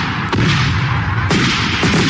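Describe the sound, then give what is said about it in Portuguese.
Fireworks set off as colored flares: a few sharp bangs punch through a steady, rumbling crackle. “eu mando aqui os fogos pro senhor, ó, fogo roxo pra sair do acolcho, viu? Amarelo pra demorar a chegar no cemitério”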